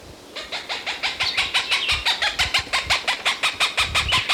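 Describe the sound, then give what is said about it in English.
A Cooper's hawk gives a rapid, steady series of harsh, cackling calls: many evenly spaced notes repeat for about four seconds at a fairly loud, even level, with no voices. “Cooper's Hawk again.”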